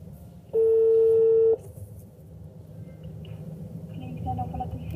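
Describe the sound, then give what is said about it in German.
A phone call placed by a voice assistant sounds a single steady electronic tone lasting about a second, followed by low background noise. “Hey Siri, Klinik Seelhofen Burgdorf anrufen.”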